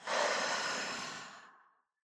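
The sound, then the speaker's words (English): A single breath during a guided breathing pause: one long, airy, sigh-like exhale, fairly soft, that holds steady and then tapers away to silence. “Breath in and out.”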